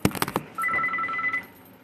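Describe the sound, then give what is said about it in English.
A hotel front-desk telephone rings in one steady electronic two-tone burst lasting under a second, preceded by a few sharp clicks; no talk. “Looks like the phone is ringing.”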